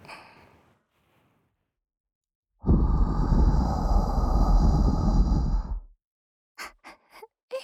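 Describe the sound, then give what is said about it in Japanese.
A long breath is blown close into the microphone toward the listener: one steady, loud, airy whoosh lasting about three seconds, with faint breathy sounds before it and a few short, soft puffs after. “でもこうやって息かけられるのも慣れると気持ちいいから。”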